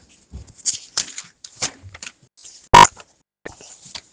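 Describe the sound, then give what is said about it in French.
Sticky pages of a new Bible are peeled apart and turned, producing a series of crisp paper rustles and crackles, one noticeably louder snap among them. “Page qui colle, attention. Je ne devrais pas acheter des bibles neuves, je devrais acheter des bibles d'occasion.”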